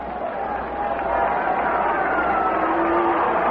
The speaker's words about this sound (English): Second hit off Conley. And all the noise because Mickey Mantle's coming up there.